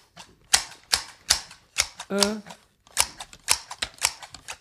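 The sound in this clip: Scissors snip a boy's hair in a rapid, steady series of many sharp, crisp metallic clicks, broken once midway by a short voiced sound.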